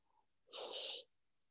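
A single forceful breath out, part of a seated meditation practice of expelling stale air after chanting mantras: one loud, breathy rush that lasts about half a second and stands alone against near silence.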